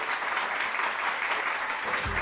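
Applause from a crowd, a steady, even wash of clapping hands that holds at a moderate level throughout the short moment, with no voices over it.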